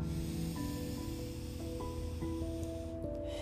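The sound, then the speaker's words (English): A long, forceful exhale during a guided breathing exercise in a meditation, heard as a steady breathy hiss over soft, sustained music notes. “We're going to take 4 more breaths here. In nice and deep, and then exhale nice and hard.”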